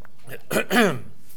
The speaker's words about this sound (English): I apologize for the coughing, and I won't say any more about it.